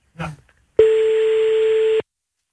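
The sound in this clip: A telephone line tone as a radio show calls a listener: after a brief voice, a single steady tone sounds for just over a second, then stops abruptly.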